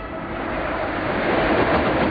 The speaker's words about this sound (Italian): Il treno locale Trapani-Palermo sta attraversando la località Feudo, pochi chilometri da Cinisi.